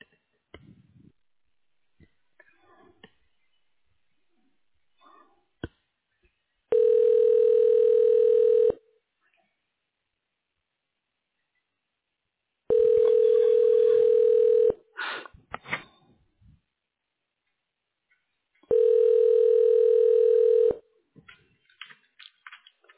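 Telephone line tone while a call is transferred to a hospital office voicemail: three long, steady, mid-pitched tones of about two seconds each, separated by quiet gaps with faint clicks.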